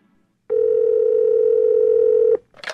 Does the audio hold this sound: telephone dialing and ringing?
yes